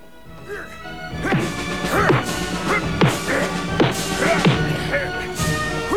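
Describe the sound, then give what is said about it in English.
Film fight punches and a body thrown against a wall: a rapid run of heavy thwacks and crashes, loud and repeated, with strained grunting voices between the blows. “The bulky goon grabs him up, drags him backwards, and throws him against a wall. He pounds Batman with punches.”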